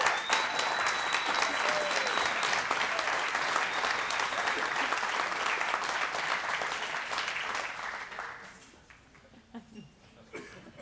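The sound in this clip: A church audience applauds loudly and steadily, a dense wash of clapping held for several seconds before it thins out and fades near the end.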